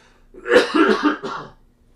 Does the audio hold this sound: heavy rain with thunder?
no